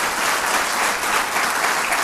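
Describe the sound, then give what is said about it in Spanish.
Church audience applauding during a sermon, a dense, steady wash of many hands clapping that holds at an even, fairly loud level throughout. “Dale ese aplauso a la palabra de Dios.”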